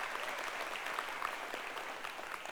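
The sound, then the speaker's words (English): Audience applause welcoming a group onstage: dense, even clapping holds at a constant level throughout, with no voices standing out. “Let's give all of them a hand and welcome them.”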